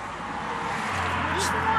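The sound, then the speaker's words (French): A car pulling up and stopping makes a low, steady engine rumble that grows gradually louder across the short stretch. “Une voiture s'arrête.”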